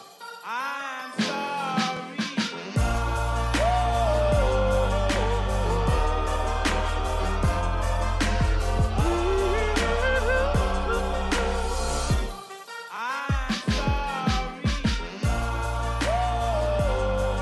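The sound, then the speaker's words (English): Rap music plays with a heavy, booming bass line and strong punchy drums. A sparse intro leads into the full beat, which drops out briefly once before returning loud. “It's rap music, and it sounds like this.”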